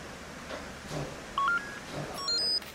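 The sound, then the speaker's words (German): Telephone keypad tones as a number is dialed: several short, clear electronic beeps in two quick clusters over a faint background hiss. “Ich werde Frau Müller anrufen.”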